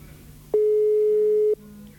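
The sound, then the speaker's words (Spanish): Telephone ringback tone heard while calling a number in the United States: one steady, mid-pitched tone lasting about a second, clean and alone, with quiet line hiss before and after. “Bueno, sigue llamando. ¿Nos atenderá?”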